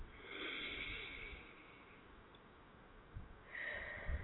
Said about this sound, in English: let's take a couple deep breaths